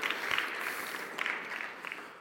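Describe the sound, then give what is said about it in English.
A church audience applauds couples who renewed their wedding vows, a soft, steady patter of many hands clapping with a few sharper bursts. “So I want to take a moment and applaud all of you who also renewed your vows.”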